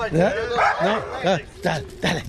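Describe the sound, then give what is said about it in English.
An attack dog barks in a series of sharp, harmonic barks spread evenly across the moment, loud and close together, with people's voices mixed in among them. “And, of course, they love to see the attack dog they brought along, Reagan.”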